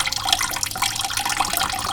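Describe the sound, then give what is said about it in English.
Rapid, crisp munching of a pet rabbit eating vegetables, a dense continuous run of small wet crunches at a steady level with no voices. “that was our rabbit Bilbo Baggins eating some veggies”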